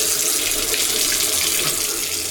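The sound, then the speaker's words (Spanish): Tap water runs from a faucet while dishes are washed, a loud, constant hiss of flowing water with no breaks. “Si no cerras la llave mientras lavas los platos o te cepillas los dientes, estás desperdiciando el agua”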